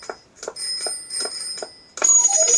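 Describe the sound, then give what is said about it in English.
A video game plays a bicycle bell: five quick, evenly spaced bright rings, then a louder burst of high chiming at the end. “But I better turn away from those electric wires. And now the bicycle's coming.”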